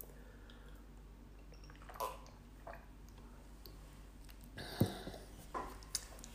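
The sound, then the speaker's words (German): Someone takes a sip of a drink, making faint, quiet slurps and small clicks, a few soft events with a sharper knock near the end. “Moment, ich muss mal einen Schluck trinken.”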